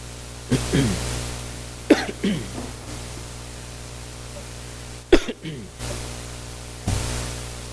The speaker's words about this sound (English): Somebody's down inside of my throat with a feather, and they keep going like that.